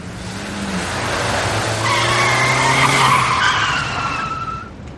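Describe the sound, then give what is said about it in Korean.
Car tires screech in a long skid as a car stops hard in a near collision at a city street intersection; a loud, sustained squeal of wavering whining tones that swells in the middle and trails off after several seconds. “(34번가와 2번로가 교차하는 길 한복판에서) 차량 두 대가 충돌할 뻔했다. 두 대 모두 말도 안 되는 각도로 멈춰 섰고”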